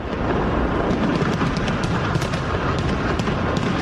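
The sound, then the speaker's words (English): Fireworks exploding over the Brandenburg Gate in Berlin at a New Year celebration, a dense, continuous roar of many overlapping booms and crackling bursts at a steady, loud level. “Germans celebrated the arrival of 2024 with fireworks over the famed Brandenburg Gate.”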